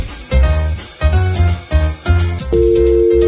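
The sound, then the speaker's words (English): A Discord incoming call ringtone: a short synthetic electronic tune of a few bright tonal notes over low rhythmic pulses, ending on a sustained steady tone, heard alone. “Discord calling.”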